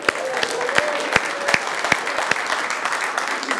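A church audience applauds new members with a brief burst of brisk, loud clapping. Sharp hand claps crackle steadily throughout the short stretch, with no pause.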